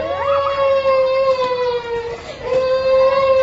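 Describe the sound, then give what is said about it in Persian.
A young girl cries in a sustained, high, wavering wail that dips briefly before rising again. “ها دیگه چرا گریه میکنی؟”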